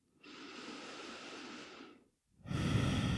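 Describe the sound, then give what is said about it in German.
Deep, slow breaths in and out: two long airy breaths separated by a short silence, the second louder and more rushing than the first, soft and close with no talking. “nimm direkt ein paar tiefere Atemzüge ein und aus hier”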